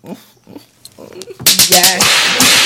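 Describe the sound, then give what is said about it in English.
Whip cracks used as a sound effect: a few loud, sharp snaps in quick succession follow a brief stretch of quieter voice, then give way to dense, harsh, bright noise. “I just had to whip them one time”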